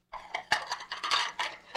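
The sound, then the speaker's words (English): Dishes and cutlery clink and clatter as they are carried and handled, a quick run of many light chinks with one sharper knock early on. “Now, you just put those dishes down a minute.”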